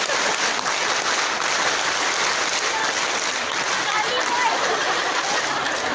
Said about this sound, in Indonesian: Coba kalau kompak semuanya, tepuk satu. Tepuk satu, tepuk dua, tepuk tiga, tepuk pramuka.